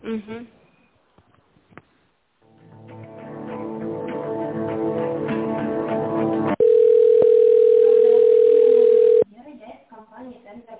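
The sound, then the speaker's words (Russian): A steady telephone tone plays during a call transfer: one loud, unbroken pitch held for a few seconds. Before it comes a melodic passage, and brief talk is heard at the start and again after the tone ends. “Сейчас я переведу вас на Анну Владимировну.”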